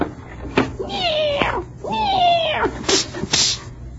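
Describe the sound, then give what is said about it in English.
A cat meows angrily in two drawn-out, arched cries. Short sharp bursts come between and after the meows, and no one talks. “you feed the cat? Oh, yes, boss. She just finished a plate of turkey. And what's she mad about?”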